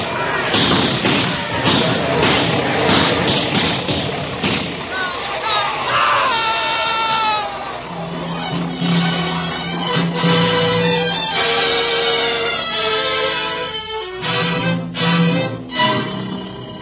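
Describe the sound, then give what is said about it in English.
Rifle gunfire in a battle scene, many sharp cracks and thuds in quick succession over the first few seconds, followed by raised voices. “Load up, men. Don't shoot till I tell you. Wait till they get up close. Quick. Oh, Lord, let it happen quick. Now, men. Fire. Now, fire.”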